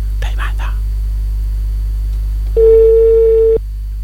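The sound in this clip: A telephone ringing tone sounds once as a steady, loud, pitched tone lasting about a second, set against a low background hum. A brief murmur of voice comes earlier.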